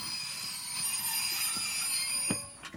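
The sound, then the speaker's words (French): Train of cattle wagons arriving and stopping at Pithiviers station in July 1942, a steady rolling rumble with high wheel squeal, then a sharp screech and a couple of clunks near the end. “Le train s'arrête, on ouvre les wagons et nous voyons que nous sommes à la gare de Pétivier.”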